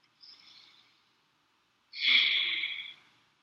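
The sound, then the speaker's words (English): A deep breath in and out during a guided relaxation exercise. A soft, short breath is followed by a longer, stronger airy one, faint and alone with no talking. “One more deep breath in and out.”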